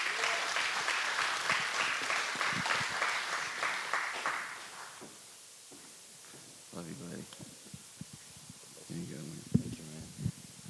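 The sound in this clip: A church audience applauds as a guest pastor from Uganda is welcomed up, with steady, dense clapping for about five seconds before it fades and voices talk.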